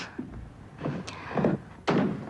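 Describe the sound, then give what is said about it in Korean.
A room door opens onto a corridor in a drama scene, heard as a few soft knocks and thumps building to a louder final thud, with no voices. “요가는 복도에서 나는 동정에 문을 열고 내다본다.”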